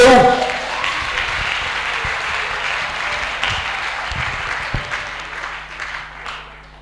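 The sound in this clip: A church audience applauding, a steady wash of clapping with voices mixed in that gradually tapers off toward the end.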